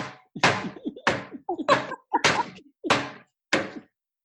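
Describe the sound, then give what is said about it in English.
A spoon is banged onto a plate, mimicking a loud, graceless cook serving food: several hard, loud whacks in an uneven rhythm, each fading quickly. “It's like when he's serving up a plate, he'll take the spoon out and like boom, bang it in the plate, and then it splatters everywhere.”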